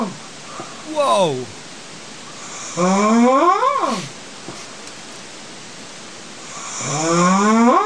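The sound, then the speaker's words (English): Very loud human snoring comes as three long, rasping snores whose buzzing pitch climbs during each breath, over a steady hiss. A voice gives a short exclamation. “this is the most ridiculous snore I have ever heard.”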